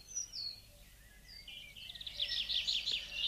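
A flock of birds chirps over a grain field on an island, with the grain not yet ripe. The high, overlapping twitters stay soft and grow denser and busier toward the end.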